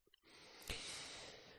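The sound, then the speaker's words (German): A person yawning: after a couple of faint clicks, a long, drawn-out breathy exhale swells quickly and holds for over a second before easing off, soft overall. “Das habe ich gähnen müssen. Ich gähne beim Podcast.”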